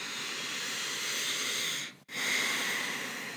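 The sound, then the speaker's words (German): A deep breath in, heard as a long, steady, breathy hiss of rushing air. A short gap breaks it near the middle before the airflow picks up again at the same level. “Nimm mal einen tiefen Atemzug. Atme mal ein.”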